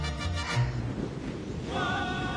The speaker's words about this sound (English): A gray sky turns the turbulent sea an icy blue as waves crash.